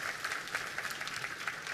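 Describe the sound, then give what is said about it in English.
A church audience applauds in a faint, steady patter of many hands clapping at an even level throughout. “And so, yeah, you can applaud that.”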